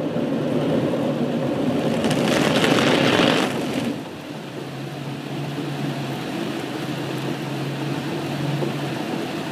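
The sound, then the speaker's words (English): A car going through a car wash: steady, loud wash of spraying water and machinery rumble. A brighter, hissier burst comes in the first few seconds, then it settles into a lower continuous roar with a faint steady hum. No voices. “This is the sound of our car going through a car wash. In the car wash, your car gets clean, and there's a lot of noise.”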